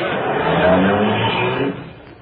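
Taxi engine pulling away as a radio drama sound effect, a rough motor rumble that holds steady and then drops off sharply near the end.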